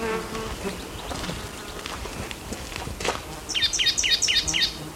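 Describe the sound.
Black-throated gray warbler singing: a quick series of high, buzzy chirping notes that appears near the end, standing out over a constant background hiss.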